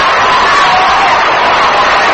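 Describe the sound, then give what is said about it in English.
Crowd applause at a baseball game as a batter comes up to the plate, a loud, unbroken roar of clapping and cheering that holds steady throughout. “Deserves a round of applause he gets as he comes up to the plate right now.”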